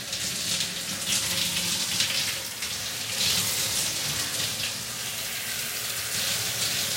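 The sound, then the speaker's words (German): Water runs steadily while hair is being washed, making a continuous broad hiss and splatter that stays even in level throughout with no pauses. “Jetzt natürlich die Haare waschen.”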